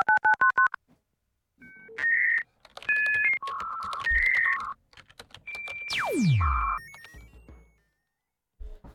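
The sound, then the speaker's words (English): A telephone call is dialled: a rapid run of short dual-tone keypad beeps, then several longer electronic tones at different pitches and a steeply falling sweep tone. “Okay, we are going to try to call her.”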